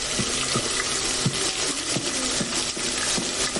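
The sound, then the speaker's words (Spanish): Water runs from a bathroom sink tap as a steady, even hiss at moderate level that continues unbroken throughout. “En el baño, abre el grifo del lavabo. El agua sale verde.”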